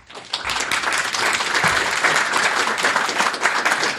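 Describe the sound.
Audience applause thanks a speaker at the close of a Commonwealth Club meeting: dense, sustained clapping from many hands rises quickly and holds at a steady, loud level throughout.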